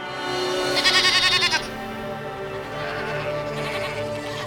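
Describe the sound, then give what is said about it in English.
A goat bleats once, loud and wavering, for about a second over a steady tonal background that continues after the call ends. “Then Mikros looked over his shoulder and let out another, louder bleat.”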